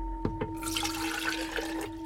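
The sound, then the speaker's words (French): Water is poured into the reservoir of a coffee capsule machine. Two soft knocks are followed by a faint, steady splashing trickle over a constant electronic hum. “Remplir le réservoir d'eau.”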